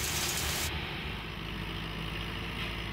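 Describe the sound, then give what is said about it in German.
Steady engine drone of a combine harvester unloading wheat grain from its grain tank into a trailer, a loud continuous rumble with a broad hiss layered on top and no voices. “Aus dem Korntank des Mähdreschers werden die Weizenkörner umgefüllt auf einen Anhänger.”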